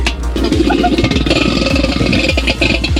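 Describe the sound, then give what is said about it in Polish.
A hand-cranked centrifugal milk separator from the 1970s turns stiffly and heavily, giving a loud rhythmic whirring clatter that repeats at a steady pace over a low hum. “tu mamy urządzenie, które było używane jeszcze w latach, powiedzmy, 70., tak zwana wirówka do mleka. Ona tu jest bardzo ciężko chodzi”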